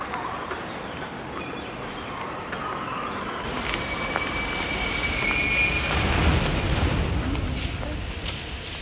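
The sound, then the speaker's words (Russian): Rumbling roar of a metro train running through a subway, a dense, continuous low noise with faint high squeals, growing slightly louder toward the end. “Заскакивает в поезд.”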